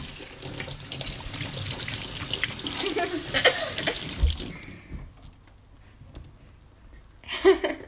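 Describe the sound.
Water runs steadily from a tap while dishes are washed up with dish soap, a loud continuous rush for about four and a half seconds before it stops, leaving quieter handling noises and a short splash near the end.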